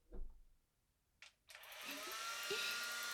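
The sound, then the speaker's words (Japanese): Hair dryer drying a customer's hair at a salon after washing and conditioning. A few brief soft knocks come first, then the dryer starts with a steady, loud whooshing blow that holds to the end. “はい、それでは椅子起こしますね。仕上げに髪乾かしますね”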